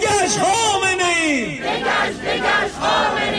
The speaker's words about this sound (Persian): این فریاد دموکراسی خواهی برای ایران در ژنو سوئیس مقابل دفتر سازمان ملل، اعتراض به اعدام معترضان در ایران.